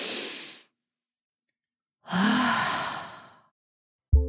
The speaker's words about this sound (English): So in my house, we use this technique called a reset breath. And I think before we move into your messages and what we can do about this, maybe we all need a little reset breath.